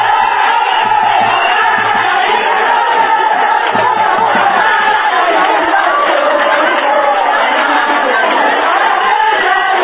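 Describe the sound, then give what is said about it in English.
A dense crowd of market traders in Ghana cheers and shouts to welcome President Mills. Many voices blend into a loud, continuous roar, with whoops and cries rising throughout. “at the market came to a halt as all the traders came out in their numbers to welcome President Mills.”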